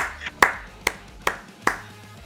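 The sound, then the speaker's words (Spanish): Hand clapping: four loud, sharp claps at a slow, even pace, each a crisp isolated smack with quiet between them and no voices. “Solo puedo levantarme y aplaudir.”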